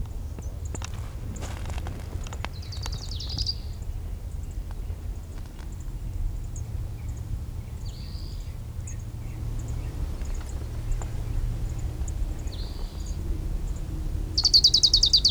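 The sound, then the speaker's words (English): Short, high trilled bursts of an orange-crowned warbler singing on a canyon divide recur a few times, faint over a steady low rumble. “Orange crowned warbler number 3 on the divide between Sweetwater and Middle Canyon.”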